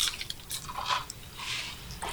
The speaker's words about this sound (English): Texture on 637 is shatteringly crisp. It's amazing. Perfect French fry texture. It's loud. Yes. Like as you chew it, it's crunchy.